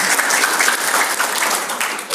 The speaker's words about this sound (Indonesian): Tepuk tangan untuk kita semuanya.